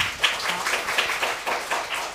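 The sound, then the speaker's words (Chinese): Applause from parents and children at a school award ceremony, steady brisk clapping that runs throughout without talk. “大家掌声鼓励一下”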